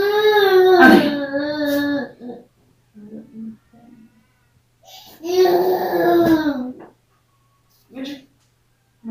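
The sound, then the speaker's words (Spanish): A young child cries in two long, loud, high wails, with shorter, softer whimpers and sobs in the pauses between them. “Vamos a esperar que termine de llorar el niño”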